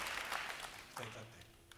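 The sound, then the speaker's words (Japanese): Applause from a concert audience after a drum solo: a short, dense spell of clapping that fades within a second as a voice begins speaking. “拍手。”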